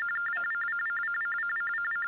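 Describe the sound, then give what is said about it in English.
A mobile phone rings with a rapid, trilling electronic tone, steady and unbroken throughout, with nothing else heard alongside it. “what is that? His phone. Fred, is that your phone?”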